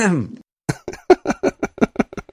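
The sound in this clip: A person clears their throat once with a short, rough, voiced rasp, then begins talking.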